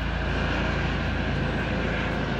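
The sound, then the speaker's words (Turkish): Police helicopter circling overhead during a search, a loud, steady droning roar of rotor and engine that holds unchanged through the short stretch. “Bir dinleyicimiz bir video göndermiş. Videoda helikopter geziyor gökyüzünde. Fıkır fıkır geziyor.”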